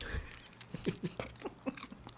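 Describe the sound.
Crisp crunching of crispy-skinned food being chewed, with many quiet, irregular bites and crackles over a soft background hiss.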